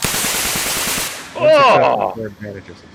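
Automatic gunfire sound effect for a tabletop role-playing game: a dense run of rapid bursts under harsh hissing noise, which then drops away into a short voiced sound.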